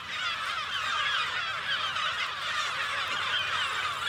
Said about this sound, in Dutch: Verslaggever Henny Radstaak staat daar tussen de zilvermeeuwen en kleine mantelmeeuwen.